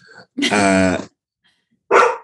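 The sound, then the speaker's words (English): A dog barks twice, a long, drawn-out, harmonic bark followed after a pause by a shorter one, both loud. “My dog is being a dog.”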